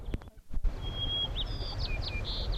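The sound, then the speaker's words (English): A white-crowned sparrow sings a clear, high whistle followed by a quick run of high chirps and short trills, fairly faint over a low background rumble. A few sharp clicks come just before the song. “White crowned sparrow”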